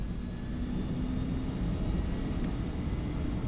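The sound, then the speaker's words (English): A jet airliner takes off in a film sound effect from the 2005 movie Red Eye, heard as a deep, steady engine rumble, low and unbroken throughout. “This is a great sound moment by Todd Toon and his crew at Disney, who did all the sound work on the film, to build the takeoff into something where you actually could feel it right in your chest when you're in the theater.”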